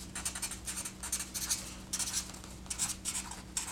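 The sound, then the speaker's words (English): Hand drawing and writing with a pen on paper: many short scratchy strokes in a steady, brisk rhythm over a constant low hum, with no talking. “So right here, I'm just going to draw this out.”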